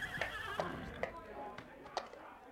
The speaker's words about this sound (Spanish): Anda, tráeme un tercio de alfalfa pa' mi yegua.